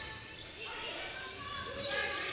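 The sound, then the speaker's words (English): A basketball is dribbled up the court during a women's college basketball game. Soft, repeated bounces sit under steady arena noise, and a voice talks over them. “dribbling it up the court”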